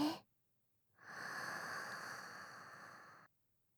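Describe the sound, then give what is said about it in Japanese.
A deep breath drawn in through the nose during a guided breathing exercise: one long, steady, airy inhale lasting about two seconds, heard alone after a brief sound at the start. “まず大きく 鼻から吸って、”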